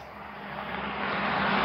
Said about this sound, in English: They arrive at the airstrip. An unmarked, shiny black jet is waiting.